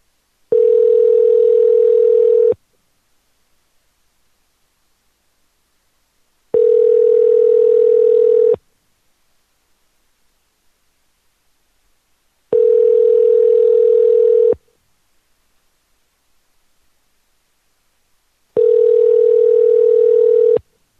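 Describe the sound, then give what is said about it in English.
Telephone ringing tone heard while placing a call: four steady single-pitched tone bursts, each about two seconds long, separated by roughly four seconds of silence, loud and clean with no voices. “Let's give him a call.”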